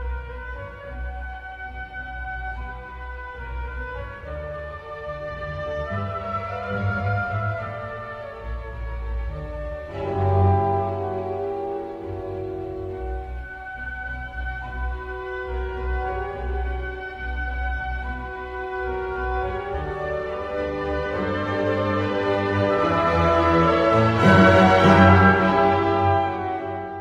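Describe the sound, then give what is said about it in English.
An orchestra plays a main theme twice in a row. Strings set up a chord progression and oboes and clarinets carry the melody, each statement ending on a half cadence. Sustained harmonic tones swell gradually, reaching their loudest near the end. “first the strings are going to set up this chord progression, and then the oboes and the clarinets are going to come in with the main first theme.”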